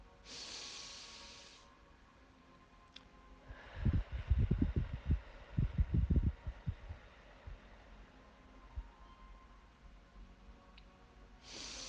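Slow breathing in and gentle blowing out during a calm children's breathing exercise: a soft, steady hiss of breath at the start, then a run of low, muffled breathy puffs, all quiet, with no talk.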